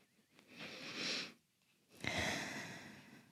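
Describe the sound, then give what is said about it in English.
A group of people takes a deep breath together before a prayer: a long, airy inhale, a short pause, then a longer, steady exhale. The sound is soft and breathy, with no talking. “All right, let's take a deep breath.”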